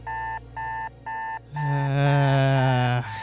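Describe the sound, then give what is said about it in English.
An alarm clock going off: three short, evenly spaced, high electronic beeps, then a longer continuous ringing tone that holds loudly for about a second and a half before cutting off. “You jolt awake, your alarm going off.”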